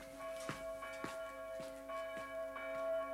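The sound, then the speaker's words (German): Church bell rung as an infant is carried in for baptism: a quiet, steady series of ringing strikes with a sustained, resonant hum lingering between them. “Die Glocke ruft, der Täufling wird in die Kirche getragen.”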